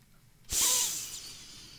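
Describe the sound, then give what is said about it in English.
Deep breath in: a sudden loud airy inhalation through the nose and mouth with a sharp hissing onset that tapers off gradually over about a second, alone against faint background. “So just stop a minute and take a deep breath in”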